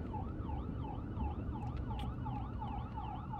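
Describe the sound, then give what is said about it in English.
An ambulance siren passing: a fast wail that swings up and down in pitch, repeating many times at an even pace, faint over a low rumble of road traffic. “oh, there's an ambulance.”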